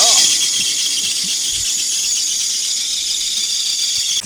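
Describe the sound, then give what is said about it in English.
A car engine's drive belt squeals at startup, a belt that also runs the air conditioning. The loud, steady, high-pitched squeal holds unbroken through the whole clip. “They told me that they can take that belt off and then my air conditioning won't work, or I can leave it on and then it'll squeal for 15 seconds, but my AC still works.”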